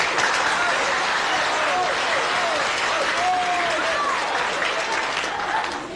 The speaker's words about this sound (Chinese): 别鼓掌了。